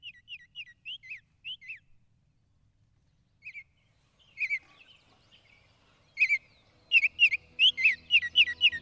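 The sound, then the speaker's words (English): A Baltimore oriole sings clear whistled notes in short phrases separated by pauses. Soft slurred whistles open the song, and louder, quicker bursts of notes follow toward the end over a faint low rumble. “That, folks, is what a Baltimore Oriole sounds like.”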